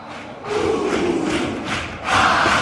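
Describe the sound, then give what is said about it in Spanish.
Audience cheering and shouting a warm welcome for a performer's first solo act, a dense crowd roar that swells, dips slightly, then surges louder near the end. “Y esta es la bienvenida calurosa que le brinda el público.”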